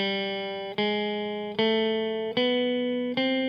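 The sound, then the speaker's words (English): A chromatic voice-leading melodic line is played as a musical demonstration: five sustained, bright, organ-like notes, each struck cleanly and then fading, stepping upward by small degrees. “these chords are connected by this chromatic voice leading melodic line that sounds like this.”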